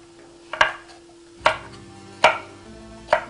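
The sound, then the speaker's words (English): A knife cuts vegetables into roughly equal chunks: four crisp, evenly spaced chopping strikes, each a sharp loud knock, over a faint steady hum. “So I'm just cutting all of these into roughly the same size chunks”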